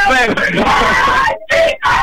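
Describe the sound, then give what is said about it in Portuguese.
Football fans shout for their team's promotion, a loud mass of voices that drops out briefly twice near the end before resuming. “Bem, e continuam a gritar por subida, se bem que ainda não está acostumada, já.”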